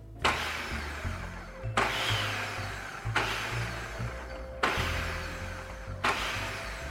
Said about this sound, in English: I'm gonna let the machine do the work. I don't want them to get chopped into little bits, so I'm just gonna quickly pulse maybe like 5 times, and then they'll be completely mixed in.